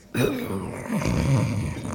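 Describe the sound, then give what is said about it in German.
Loud snoring from a vicar dozing on a corner bench after a soup meal: one long, low, raspy rumble that holds steady for nearly two seconds, with no talking over it. “Wer schnarcht denn da so unfassbar? Es ist der liebe Herr Vikar.”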